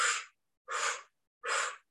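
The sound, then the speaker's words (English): Three short, puffy breaths out during a breathing exercise, each a soft, breathy exhalation of under half a second, evenly spaced with clear silence between them and no talking. “Do little puffy breaths out to help you hold.”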